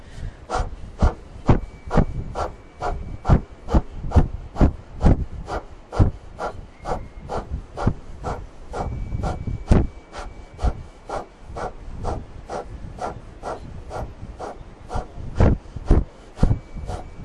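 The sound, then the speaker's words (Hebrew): Short, sharp exhales from a kapalbhati-style breathing exercise repeat at a brisk, even rhythm, many forceful puffs of breath through the nose following an inhale. “שאיפה ונשיפות קצרות וקצובות.”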